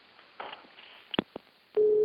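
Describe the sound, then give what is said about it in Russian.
A telephone line tone is heard while calling someone: a few faint clicks and soft noises come first, then a loud, steady low tone starts near the end and holds. “с такими сложными вопросами я всегда звоню нашему замечательному астрофизику Владимиру Георгиевичу Сурдину.”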